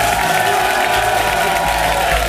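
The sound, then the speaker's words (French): Audience applause at a Christmas market in Alsace, given as a show-of-hands vote on force-feeding geese for foie gras. The clapping is dense and steady and mixes into a general crowd roar for the whole stretch. “À l'applaudimètre s'il vous plaît, allez-y, applaudissez.”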